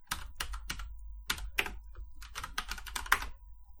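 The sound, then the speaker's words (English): Rapid typing on a computer keyboard, many sharp, irregular keystroke clicks in quick bursts and short pauses, heard alone without talk. “you should just type wolf spider into Google. I'm going to... All right. Sorry for the clicking noise.”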